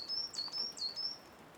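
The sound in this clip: A coal tit sings its two-tone call in a park: several quick, high, thin phrases alternating between two pitches, repeated in a steady rhythm and heard alone against quiet background.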